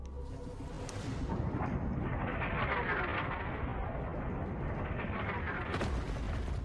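A torpedo is fired toward a crack in the seabed: a deep, loud roaring rumble with a rushing hiss that holds steady for several seconds.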